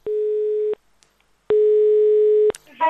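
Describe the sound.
Telephone line tone while a call is being placed: two long, steady, low-pitched beeps separated by a pause, the second longer than the first, followed by a voice starting to speak at the end.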